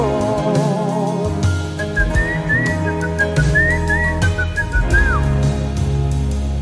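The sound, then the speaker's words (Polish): Someone whistles a twist tune, a bright, melodic line with fast trills and slides, playing over a loud band backing. The whistling ends on a falling note. “idzie sobie w świat, gwizdze twista. Gwizdze go.”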